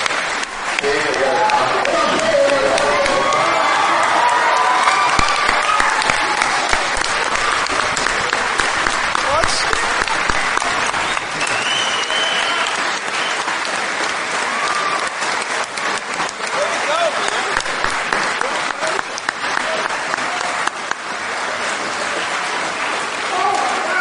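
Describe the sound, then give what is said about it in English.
Loud, steady applause and cheering from a crowd of about 1,000 people celebrating the climax of a space mission, when a probe crashed as intended. The dense clapping and shouting run unbroken from start to finish. “Here is the sound of 1,000 or so people celebrating what may be the strangest climax of a space mission in history.”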